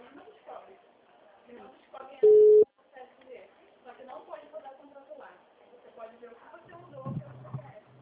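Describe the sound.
A single loud, steady telephone tone marks a call that seems to have dropped. It lasts well under a second and sounds over continuous conversation.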